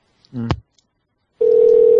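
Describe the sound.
A telephone line is redialled after reaching voicemail: a brief voice sound comes first, then after a short pause a loud, steady, low-pitched ringing tone starts and holds to the end.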